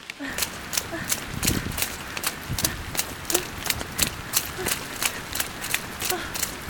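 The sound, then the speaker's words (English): Bare feet running on wet, cold ground: many quick, evenly spaced slapping steps that keep a steady brisk rhythm from start to finish. “We'll just toss these shoes aside and get back up. Oof! Run barefoot then.”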